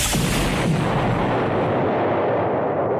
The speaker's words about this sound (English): Actually, I do hate to break it to you there, but we're just gonna shoot you down. Less paperwork, eh? I don't think so. Activating high-impact missile.